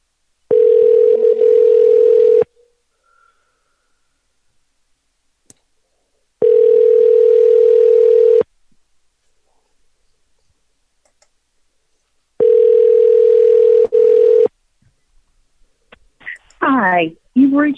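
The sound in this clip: Ringback tones on a telephone line while testing a voicemail call: three long, steady, mid-pitched tones of about two seconds each, separated by longer silent gaps, then a short burst of warbling sound at the end.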